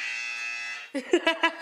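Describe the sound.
A quiz buzzer gives one steady, harsh electronic buzz lasting about a second, followed by short bursts of voice-like sound.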